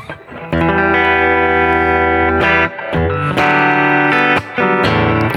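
A Fender Acoustasonic acoustic-electric guitar plays through a fat semi-clean electric amp preset with gritty distortion. A few loud, sustained chords ring out, each separated by a brief gap.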